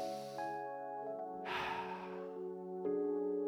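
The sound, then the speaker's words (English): A single deep, breathy inhale or exhale swells up once, loud and airy, over steady sustained musical tones during a guided breathing exercise. “If you are comfortable, just breathe in and breathe out with me.”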